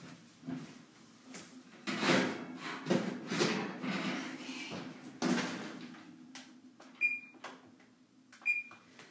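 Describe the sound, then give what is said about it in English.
Clattering and knocking as a dish goes into an oven, with muffled door and rack handling noises, followed by two short, high electronic beeps. “All right, hang on a second. Let me put this in the oven.”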